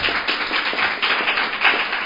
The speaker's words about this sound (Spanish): Pueden aplaudir si quieren.